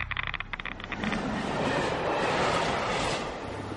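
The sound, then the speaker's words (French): A train at Le Bourget railway station gives a loud, continuous rumble with steady rail clatter, holding an even level throughout. “Alors, on est gare du Bourget.”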